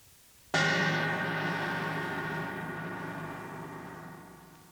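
A single cymbal crash played back from tape at half speed, 3.75 inches per second, so it sounds an octave lower and lasts twice as long: a sudden, darker hit followed by a long, gradually fading metallic ring.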